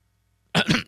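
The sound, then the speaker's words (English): A sudden cough bursts out of silence in two quick, harsh pulses, short and fairly loud, with nothing else heard around it. “Something over here made me cough suddenly.”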